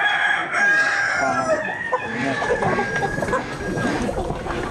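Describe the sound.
A rooster crows amid the busy clucking of a flock of chickens, a drawn-out harmonic call at the start giving way to dense, overlapping clucks.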